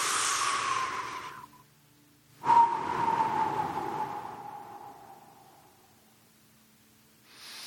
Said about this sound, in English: just close your eyes and breathe deep into your belly. Like, push it out, like they tell you to never do, like no proper person would do. Breathe into your lowest part of your belly.